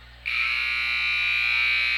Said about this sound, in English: there's the buzzer